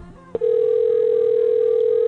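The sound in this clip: A telephone ringback tone on an outgoing call: a short click, then one steady, pure electronic tone that holds unbroken to the end.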